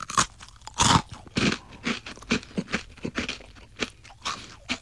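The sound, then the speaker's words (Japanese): Crunchy biting and chewing of a croquette left over after club practice and no longer fresh: many crisp, uneven crunches, fairly faint, with a louder bite near the start and steady chewing after it. “コロッケだね。 コロッケですよね、 これ。これコロッケだ。”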